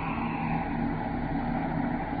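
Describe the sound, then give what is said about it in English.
Spaceship braking rockets fire at one-quarter thrust during descent toward an asteroid mining camp, a steady, dense roaring rumble with a broad hiss above it, loud and unbroken throughout. “Braking rockets, one quarter. Aye, sir. Braking rockets, one quarter.”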